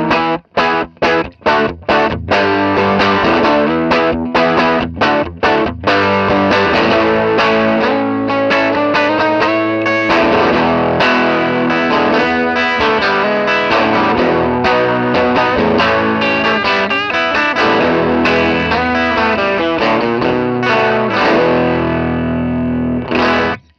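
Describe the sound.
A Silverjet electric guitar plays through heavy distortion and a chorus-like effect. It opens with a few sharp, separated chord stabs, then moves into continuous, driving riffing that stays loud to the end.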